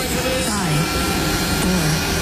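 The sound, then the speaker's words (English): Loud, steady roar of a jet aircraft engine on takeoff from runway 8 kilo. The sound is a broad, unbroken rush with a faint whine on top, and voices talk over it. “5527, runway 8 kilo, you're clear for takeoff.”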